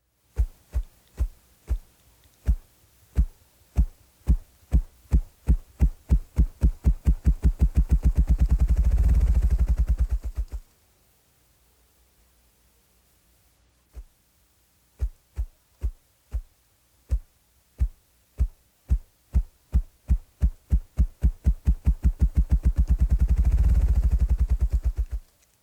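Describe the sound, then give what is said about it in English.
Ruffed grouse drumming made by rapid wing-flapping: deep, low thumps that start slow and quicken into a fast whirring roll. Two full bouts are separated by a quiet pause, with no voices. “While the grouse uses his syrinx to produce several call notes, his primary song is produced by rapidly flapping his wings. The air compressed between his wings and body creates a deep drumming sound.”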